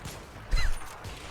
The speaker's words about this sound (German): Ihr hört den Typ daneben schießen, oder? Hier, von links, hört man den Typ schießen.